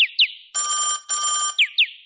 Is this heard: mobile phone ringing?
yes